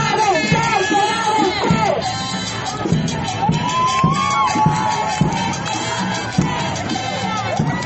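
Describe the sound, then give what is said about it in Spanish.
Women shout and cheer at a feminist protest for abortion rights in La Paz, a dense, continuous crowd roar with repeated loud whoops and yells rising over it. “Vamos a seguir entrevistando compañeras que están animadas, gritando que caiga el patriarcado.”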